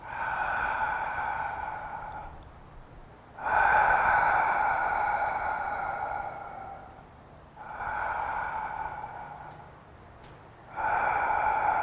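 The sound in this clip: Slow, deliberate breathing during a relaxation exercise, with a little effort on each exhalation. Four long airy breaths with a faint whistling tone swell and fade in even cycles over about twelve seconds, with no talking.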